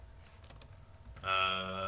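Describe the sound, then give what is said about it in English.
Someone types on a computer keyboard, producing a quick run of light, irregular key clicks before a louder sustained sound takes over. “Okay, I'm gonna type them as you go.”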